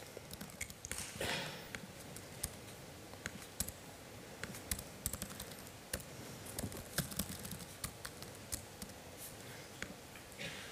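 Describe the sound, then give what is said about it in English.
Code is typed on a computer keyboard, with many quick, faint, irregular key clicks running continuously throughout. “And whenever I keep on coding, so let's say that I start doing some other gibberish,”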